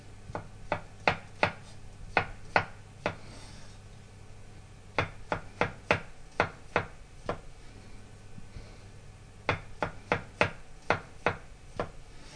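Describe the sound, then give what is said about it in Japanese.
A knife thinly slices mushrooms on a cutting board, the stems cut off first and each cap laid flat. Crisp, evenly spaced taps come in three quick runs separated by short pauses, with no voices. “マッシュルームは軸の部分を落として薄切りにします。軸を取った方を下にしておいて端から薄切りにします。”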